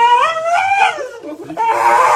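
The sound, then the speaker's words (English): A dog howls and whines while a groomer clips its nail, a loud wavering cry that climbs and then sags, followed after a short dip by a second strained, whining cry. “the howl and growl as far as the groomer reaching to clip just one nail here. All right, just one little clip. Ready? You fine! You just whined!”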